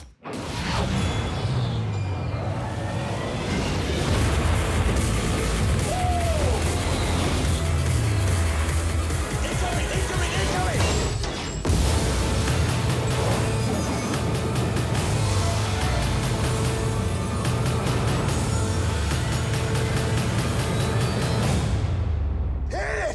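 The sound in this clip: Explosions and heavy crashing effects from the trailer for the film Battleship, an adaptation of the Hasbro strategy game, form a loud, dense wall of booms and mechanical noise that barely lets up.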